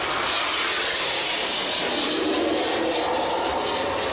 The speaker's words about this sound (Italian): E non appena la formazione sarà passata di fronte a noi, il solista ci regalerà il pezzo di bravura, il longshore, una manovra proibita.